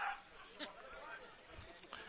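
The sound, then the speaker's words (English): A dog at a baseball game gives a few faint barks and yips, mixed in with talking voices and background noise. “I swear they're trying to get the dog to bark at certain moments.”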